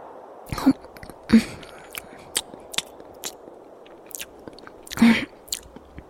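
Chewing on a dry piece of bread, with a few sharp, crunchy bites and softer chews and scrapes between them, all at a steady, unhurried pace with no talking.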